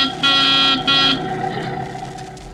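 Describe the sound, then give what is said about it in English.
A car horn honks twice in quick succession, loud and buzzy, as the car is driven; a steadier, quieter engine hum continues after the honks. “let's go back to yesterday and pick up Jack and Mary on their way to the studio. Rochester is driving.”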